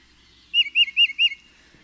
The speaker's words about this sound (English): The tufted titmouse has a lovely Peter, Peter, Peter call.